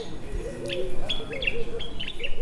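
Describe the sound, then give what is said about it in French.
Birds sing in nature at Koya, giving many short, high chirps and quick twittering calls in irregular bursts over a soft, steady background hush, with no talk. “Idiatou Camara, dans la nature, à Koya avec les oiseaux”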